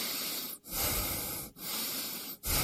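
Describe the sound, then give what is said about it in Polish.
A person breathing in and out loudly, a steady run of hissy, airy breaths broken by three short pauses. “Proszę oddychać.”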